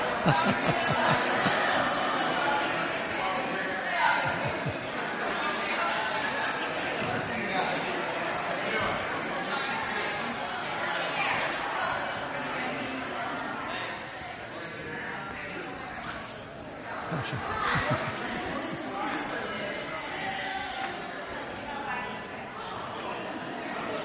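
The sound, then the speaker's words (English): A church audience greeting one another fills the space with dense, overlapping chatter from many voices, holding a steady level throughout. “So turn around and welcome someone really quick. Just turn around and say, you're so glad to see him.”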